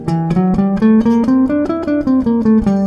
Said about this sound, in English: And now we have a Locrian sharp 2 scale, which sounds like this.